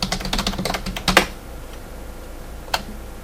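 Typing on a computer keyboard: rapid, crisp key clicks patter steadily for about a second, then stop. After a quiet stretch, one more isolated keystroke sounds.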